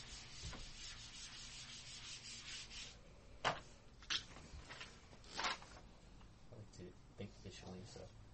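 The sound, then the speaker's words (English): Drawing a diagram produces faint, scratchy rubbing strokes that run on steadily, broken by a few sharper taps and swipes. “And so maybe we can draw this.”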